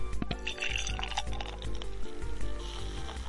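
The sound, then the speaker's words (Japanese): A carbonated drink is poured into a glass, giving a continuous fizzing hiss with bubbly crackle and splashing that stays fairly even from start to finish. Nobody speaks. “ちょっと注がせていただきますよ”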